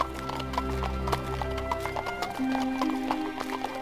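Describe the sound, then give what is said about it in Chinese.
Hooves clip-clop as a horse pulls a carriage, a steady, brisk rhythm of many hoof strikes that carries on throughout at moderate loudness. “接着他又租了一辆马车，带着500万离开了罗马，到维也纳去。”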